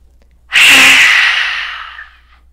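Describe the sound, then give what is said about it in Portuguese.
A forceful breath out during a therapeutic Lu Jong yoga breathing exercise, emptying all the air from the lungs: one loud, breathy rush of air that starts suddenly and fades gradually over about two seconds, heard alone. “inspirar o mínimo possível e soltar o ar. Mais uma vez.”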